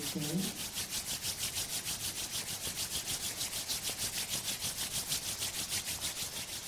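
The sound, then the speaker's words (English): Palms rub together briskly during a guided relaxation exercise. Many quick, even strokes form a steady rasping rhythm, and a voice is heard briefly at the start. “Fold your palms. Rub your palms.”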